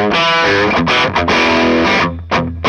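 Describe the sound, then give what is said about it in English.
Distorted electric guitar played through one channel of a custom-built tube amp, loud ringing chords with several short breaks between them, heavy and bold in tone. “he built this amp, and it was like, oh my god, this thing is amazing, you know? It's just really tough sounding. It was essentially, it was this channel.”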